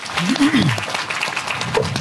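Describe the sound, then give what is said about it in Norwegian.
Applause for a drummer and a stonemason at an outdoor festival event outside Nidaros Cathedral in Trondheim, during Olavsfest. The short, scattered clapping runs throughout, with a voice briefly heard near the start. “Applaus til trommeslager og steinhugger.”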